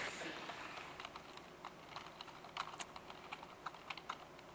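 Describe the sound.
Classic ASP code is typed on a computer keyboard as a steady, uneven run of many quiet keystrokes, faint and alone.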